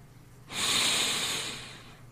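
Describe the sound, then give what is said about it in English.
A single slow breath drawn in through the nose: a soft, airy hiss that starts abruptly, holds steady, then gradually fades, heard alone without voices. “You'll need to control your breathing. The air needs to come in through only the nose.”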